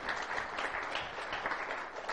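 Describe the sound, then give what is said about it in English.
A church audience applauding, a steady, dense patter of many hands clapping together, fairly faint and unbroken through the whole clip. “Give the Lord a hand of applause in His house.”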